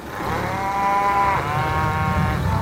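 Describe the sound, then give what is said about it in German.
Young calves mooing in a pasture: a loud, drawn-out, tonal moo that fills the whole clip, with one brief break midway and no voices. “Und ihr seht jetzt auf der anderen Seite von dem Zaun, da sind jetzt die ganzen, die jungen Kälber.”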